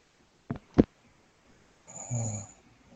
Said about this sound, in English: Is someone snoring?